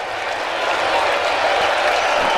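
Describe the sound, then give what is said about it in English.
Crowd noise from fans at Citi Field rising as the Mets face Boston with two out in the ninth, a dense, continuous roar of cheering and clapping that swells slightly early on and then holds steady. “And the crowd here at Citi Field begins to come to its feet.”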